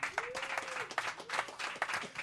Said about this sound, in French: mesdames et messieurs, on peut applaudir Ben Lefebvre